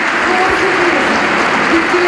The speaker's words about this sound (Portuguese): Terminar agora a intervenção com aplausos que são ouvidos e audíveis nesta altura, e com o aplauso de pé do Congresso.